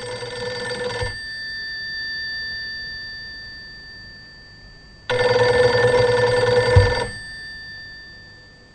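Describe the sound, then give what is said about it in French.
A telephone line rings while a call is being placed, giving two steady, buzzing rings separated by a long pause, with the second ring longer than the first. “Je vous demande quelques instants, le temps de concentration. Vous ne quittez pas deux secondes, je vais passer un petit coup de fil à mon supérieur.”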